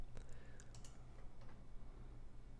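Typing a message on a computer keyboard: faint, irregular key clicks tapping over a low steady hum.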